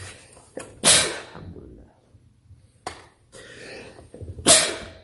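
A sudden, forceful sneeze, heard as a couple of sharp, hissing bursts separated by quieter stretches with faint sounds.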